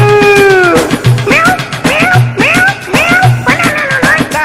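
A cat meows loudly and insistently, a quick run of several bending, whiny cries with a few short gaps between them.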